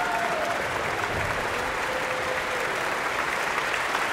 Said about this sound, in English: prompted its own enthusiastic ovation. And they're on their feet again.